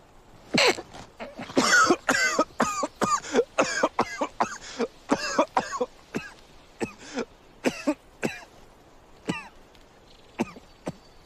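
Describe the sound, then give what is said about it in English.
Coughing and spluttering after inhaling smoke from a joint: many harsh, choking coughs in uneven bursts, loud at first and gradually thinning toward the end. “holds the smoke in, and tries to stifle a splutter.”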